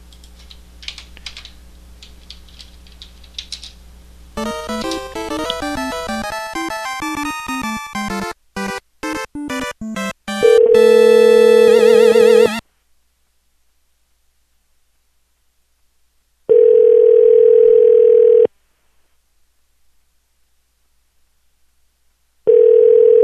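A telephone call is placed: a rapid string of dialing tones is followed by a buzzy steady tone, then ringing tones in long bursts separated by silent gaps.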